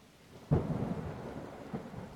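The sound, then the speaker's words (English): Thunderstorm with a deep rumble of thunder that breaks in suddenly and rolls on, then a second, smaller rumble. A steady hiss of rain runs underneath, and all of it is fairly faint. “Oh my god. This storm is getting insane.”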